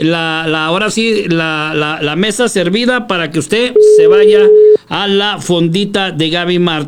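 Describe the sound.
A single steady telephone line tone sounds for about a second as a radio host dials a colleague, set between stretches of continuous talk.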